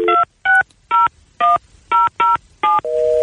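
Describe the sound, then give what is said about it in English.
A touch-tone telephone keypad dialing a number: seven short, even beeps at varied pitches in a quick steady rhythm, followed by one sustained tone, loud and clear with no voices. “All right, fine. Dial it up.”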